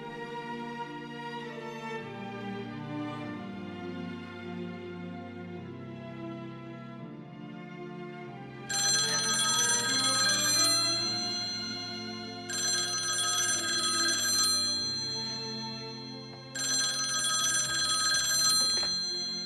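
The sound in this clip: Telephone bell ringing before an answering machine picks up: three loud, bright, metallic ringing bursts of about two seconds each, evenly spaced, sounding over soft instrumental music that plays alone for the first few seconds.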